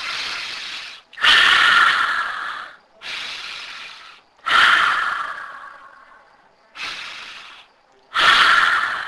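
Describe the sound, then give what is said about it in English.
Slow deep breaths drawn in and let out in several full cycles, alternating loud airy rushes with softer, longer breaths that fade away, heard alone without any talk. “Take a few deep breaths.”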